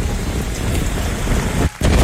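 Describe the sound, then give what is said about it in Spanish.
Strong wind blowing along Route 1 north of Tocopilla, a steady, loud, roaring rush of noise that buffets the microphone throughout, with one brief dip near the end. “Ahora, el viento, te lo encargo, a ver. Escuchen el viento.”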